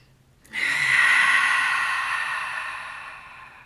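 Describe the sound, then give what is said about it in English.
A long, steady mouth exhale during a guided deep-breathing exercise, a soft breathy hiss that swells quickly and then slowly fades over about three seconds, heard alone without talk. “Exhaling through your mouth just to keep it grounded. Energy moving down on the exhale. Let's take two more breaths like that.”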